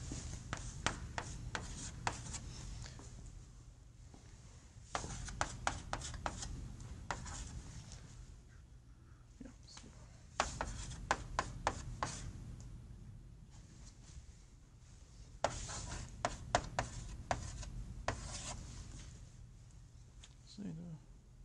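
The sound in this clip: Writing on a board during a lecture on second-order systems: several clusters of quick, dry scratching strokes separated by pauses, with speech at times.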